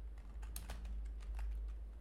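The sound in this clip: Faint typing on a computer keyboard, with many quick, irregular key clicks over a low steady hum and no talk.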